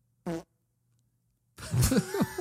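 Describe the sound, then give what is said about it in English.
A single short, buzzy fart sounds as a brief tonal burst. After a pause of about a second, a louder and longer stretch of rough noise follows. “I have one rule, and that's no farts on the podcast.”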